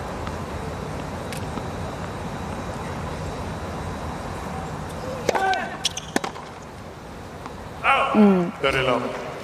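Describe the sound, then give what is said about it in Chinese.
Kubler's unreturned tennis serve lands for an ace: a few sharp pops of racquet and ball cut over a steady murmur of background noise. A brief vocal exclamation follows. “依然是发球直得，30-0。”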